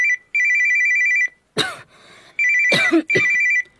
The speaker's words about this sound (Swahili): Simu yako inaita.